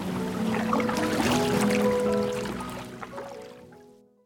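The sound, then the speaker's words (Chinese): Oars rowing a small boat that carries princesses through water in a children's story: a steady run of soft splashing and sloshing strokes that thins out and fades away at the end. “没有，没听到别的 声音，只有划船的声音， 只有划船的声音。”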